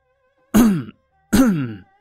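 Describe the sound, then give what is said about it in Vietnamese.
Two fake coughs, or deliberate throat clearings, from a person behind someone. They come as two short, gruff bursts about a second apart, fairly loud, with silence around them. “Từ phía sau vang lên hai tiếng ho giả.”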